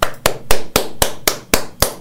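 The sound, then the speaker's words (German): Hands clap seven times, loud and sharp, in a steady, evenly spaced rhythm of roughly four claps per second. “Wir haben ganz vergessen zu klatschen.”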